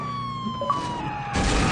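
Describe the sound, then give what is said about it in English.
A police siren on a vehicle in a video game, glitching after the car crashes and flips. Steady electronic siren tones waver and wobble, then a louder, broad burst of noise takes over near the end. “Siren's all fucked up now. You fucked up my siren.”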